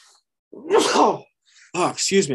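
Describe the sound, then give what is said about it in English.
A single forceful sneeze bursts out, then a short voiced sound follows after a brief pause. “can you cut that sneeze? If not, then our folks who've gotten this far could hear me sneeze on the podcast.”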